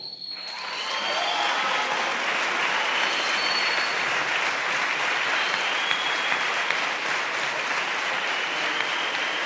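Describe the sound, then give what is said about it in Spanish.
Dense, steady applause from an audience at a question-and-answer session, starting abruptly and holding at an even, loud level through to the end. “Esos aplausos para las mujeres que están luchando, para Betty Cariño”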